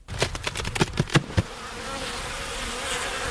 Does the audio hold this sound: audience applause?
no